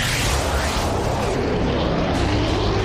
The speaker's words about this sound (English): That sound, it's more than just jet noise.